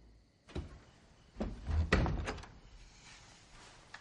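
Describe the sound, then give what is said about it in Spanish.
A bedroom door being closed, heard as a few quiet knocks and thuds of wood and latch spread over a couple of seconds, with no voices. “Cierra la puerta de la habitación de su hija.”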